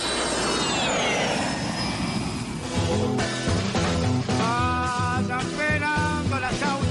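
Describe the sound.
Jet airplane roar used as a flight sound effect, with a loud engine rush and a high whine sliding downward. After a few seconds it gives way to music.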